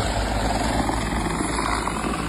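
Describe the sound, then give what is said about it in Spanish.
Steady, loud engine and rotor roar of an aircraft making an emergency landing, a dense unbroken drone that holds level from start to finish with no voices. “Sí, ahí está el momento del aterrizaje de emergencia.”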